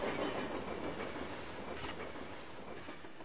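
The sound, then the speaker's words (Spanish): Train sound effect opening an educational children's program: a steady rumble of rolling rail cars with faint wheel clatter. It holds an even level throughout, with no voices. “Bienvenidos, este es el Tren de la Historia.”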